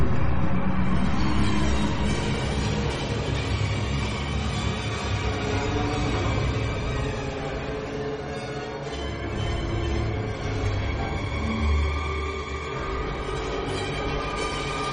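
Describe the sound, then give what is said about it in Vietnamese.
A big wheel-like object rolls closer with metallic clanking, making a heavy, continuous, train-like rumble with rattling texture that stays loud and steady throughout. “Bỗng thấy phía sau lưng có tiếng kim loại kêu lốc cốc, như tiếng một chiếc bánh xe to đang lăn về phía mình.”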